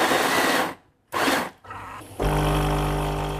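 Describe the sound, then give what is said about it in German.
A coffee grinder freshly grinds beans for espresso, with loud, harsh bursts of grinding broken by a short pause, then a steady, lower motor whir that runs to the end. “gibt's morgens einen Espresso, frisch gemahlen.”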